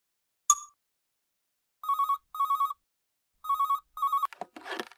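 A telephone rings for an incoming call: four loud, steady electronic bursts in two double-ring pairs, preceded by a short click and followed by a brief noisy clatter.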